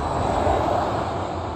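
An aircraft flies over a museum near Ontario International Airport, a steady, broad, rumbling engine drone that holds level throughout with no voices.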